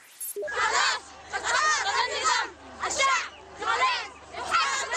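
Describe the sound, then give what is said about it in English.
A crowd of female protesters in a southern Yemeni city, shouting and calling in repeated high-pitched bursts with short pauses between them. Many voices overlap, and a low steady hum lies underneath. “That is the sound of female protesters in a southern Yemeni city shortly before they were attacked by government forces.”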